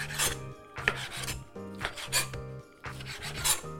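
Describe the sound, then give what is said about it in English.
A knife slices raw beef into half-inch cubes on a board, with a few rasping, sawing strokes in separate bursts and no speech. “So I'll take my knife and just go in and cut it one way, and then I'll slice the other way.”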